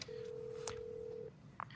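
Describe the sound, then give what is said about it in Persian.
A telephone being dialed for a call: one steady electronic beep tone lasting just over a second, then a couple of brief, faint blips, all quiet over a low background hum. “زنگ میزنم. مهم نیستم. بهش زنگ میزنم.”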